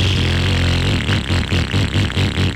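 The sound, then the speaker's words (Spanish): A badly running motorcycle engine revving, with a rough, uneven pulsing drone that breaks into a series of choppy, sputtering surges, loud and alone. “Además, si tu moto suena así,”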